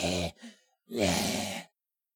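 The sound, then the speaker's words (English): A voice imitates heavy panting breath with a few breathy, rasping exhalations, a short one, a faint one, then a longer, louder one, heard alone without other sounds. “He's panting even more. His breath is getting to the point where he's just like,”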